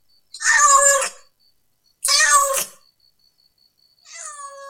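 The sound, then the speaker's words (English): A cat meows three times, two loud drawn-out calls followed by a softer, shorter one, each separated by silence. “What is the name of this animal? This is cat.”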